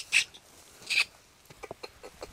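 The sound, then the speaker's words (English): Calls of a Malagasy paradise flycatcher: two loud, high, buzzy notes, then several fainter short notes in an irregular sequence. “Then he stops to mimic the call of a Malagasy paradise flycatcher perched on a nearby branch. And the bird replies.”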